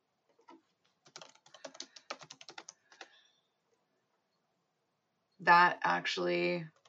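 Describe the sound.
Rapid typing on a computer keyboard while a search is entered: a brisk run of about a dozen light clicks over two seconds. After a quiet pause, someone begins speaking.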